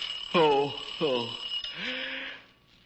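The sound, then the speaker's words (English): An alarm clock rings loudly in the morning, a jangling, steady ring with a few stronger bursts that fades out near the end. “Why don't somebody answer the phone? That isn't the phone. That's the alarm clock.”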